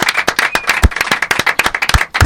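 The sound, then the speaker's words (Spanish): Audience applause for the camera operator, loud and uneven, with sharp individual claps from a modest group rather than a dense roar. “Un aplauso para el operador.”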